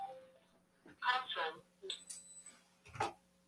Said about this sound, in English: Yeah, that's my phone. I think I'm just going to leave that. How language played a part in wowzers. Sorry about that. Okay, phone's ringing.